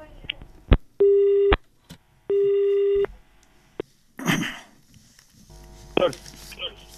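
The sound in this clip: Telephone line tones as a call connects to a farmers' radio phone-in: two long, steady electronic beeps of equal pitch, separated by sharp clicks, then a burst of hiss and crackle and a fainter tone pattern near the end.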